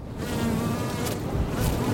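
Honeybees buzz around city hives in Astoria, Queens, New York City, a dense, steady, fairly loud drone of many wings that holds throughout without pause.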